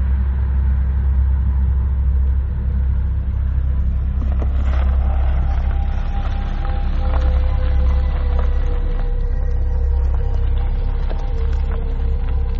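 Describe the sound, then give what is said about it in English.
A car engine rumbles steadily as the car pulls over onto a dirt road in Texas, with a continuous low, even drone throughout and no sharp events. “I don't know, hold on, let me pull over in this dirt road over here.”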